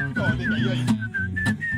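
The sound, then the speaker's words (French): A person wearing clear dental aligners whistles a thin, wavering tune in several short phrases separated by brief breaks, with a steady low buzz running underneath. “Ah ouais, siffle. Essaye.”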